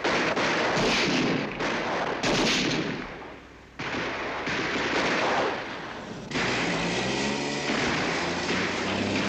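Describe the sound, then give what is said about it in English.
Gunfire in a police shootout around a clearing among trees, with loud, dense bursts of shots crowding together in long, rough stretches that rise and drop in intensity. “Cowering under a hail of bullets, Bonnie, Clyde and Moss bundle Blanche and Buck into the bullet-riddled car. Gunshots ring out around the trees as Clyde weaves the car around the clearing.”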